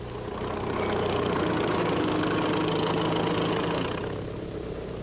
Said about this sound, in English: The next will be a bulldozer at work.